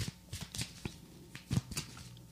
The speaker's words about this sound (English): I brought two decks, the Prism Oracle and the Numinous Astro Deck, because I've been nerding out on astrology lately.